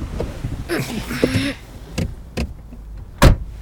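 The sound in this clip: Car door sounds as people climb into a parked car: a few sharp knocks and thuds, the last one loudest, with brief voices and handling noise at the start.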